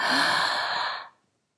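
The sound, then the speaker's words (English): A deep breath let go during a guided relaxation exercise, one long breathy exhale like a sigh, steady and airy for about a second before it stops and leaves silence. “Take another deep breath and let it go.”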